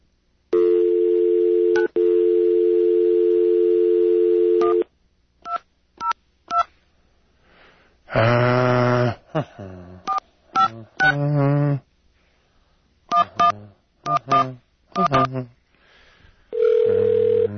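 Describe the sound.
Touch-tone telephone being dialed: a long dial tone, then many short keypad beeps in irregular bursts. A voice cuts in briefly between the tones, and a single steady tone sounds at the end.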